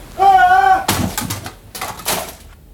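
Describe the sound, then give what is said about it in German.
A typewriter hurled against a door hits with a loud crashing impact, followed by a second clattering burst of noise. “Ingham griff nach der Schreibmaschine und warf sie in Richtung Tür.”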